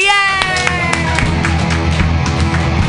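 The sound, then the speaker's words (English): An audience bursts into applause and cheering for a comedian at a stand-up comedy workshop, with dense, rapid clapping, whoops and shouts forming a loud, continuous roar throughout. “Everybody put your hands together for Ian Levy.”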